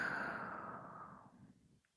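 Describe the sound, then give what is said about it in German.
A slow, deep exhale from a guided breathing exercise, breathed in through the nose and out slowly. It comes as one long, soft, airy breath that fades steadily over about two seconds into silence. “atme tief durch die Nase ein und langsam wieder aus.”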